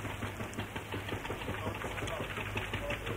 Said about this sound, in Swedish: Och så är vi färdiga att starta. Sätt maskinen igång, herr kapten.